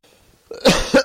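A few harsh, loud coughs from someone reading out a question during a religious question-and-answer session, coming in quick bursts one after another with no speech over them.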